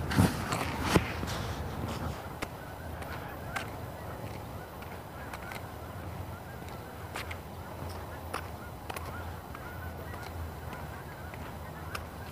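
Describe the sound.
Geese honking during a morning walk: several sharp, nasal calls rise out of a steady bed of outdoor noise, bunched near the start and then scattered at intervals through the rest.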